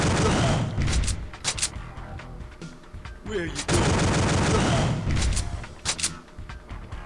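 Gunfire from a shooting video game, with dense, loud bursts of rapid shots and booms running almost continuously, broken by brief lulls.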